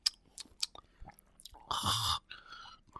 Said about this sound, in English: Like am I not smacking my lips enough? Let me try it.